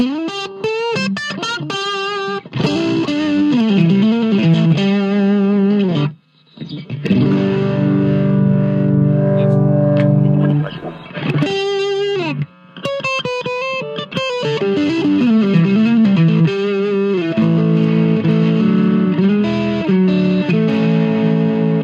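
An electric guitar with Seymour Duncan pickups voiced like a '63 Strat plays through a distortion effect, mixing quick single-note phrases with long sustained chords, loud and alone.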